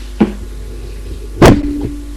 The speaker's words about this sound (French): Frappe encore une fois et entre.